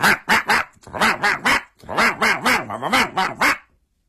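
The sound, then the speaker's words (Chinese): A pet dog barking: a quick run of three sharp barks, then two longer runs of many barks with a wavering pitch. The barks are loud and heard alone. “他旺旺啊，这太宗皇帝一看左右无人，也跟这狗汪汪汪汪汪汪汪汪汪”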